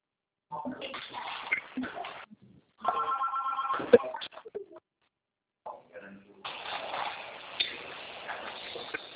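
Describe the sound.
A telephone ring tone sounds while a call is being placed. Repeated bursts of ringing come through over a narrow, phone-like band, mixed with people talking.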